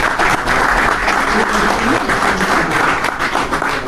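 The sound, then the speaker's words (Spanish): Audience applause at a lecture: dense, loud clapping from many hands that holds steadily for the whole stretch without a pause. “Recuerdo, sí, aplaudo también yo esta frase del doctor Bostecar.”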